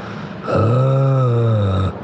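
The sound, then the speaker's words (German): A voice imitates a zombie moaning: after a brief quiet start comes one long, low, drawn-out groan that holds steady and then cuts off near the end. “Also ich höre ja gerne Stöhnen zum Einschlafen. Also äh, nicht das, was ihr jetzt denkt, sondern so zombie-mäßig.”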